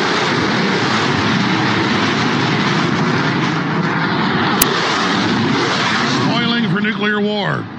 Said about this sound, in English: Got a shocking video of scores of F-16s spinning around in the air in Denmark in an attack exercise on the Russians.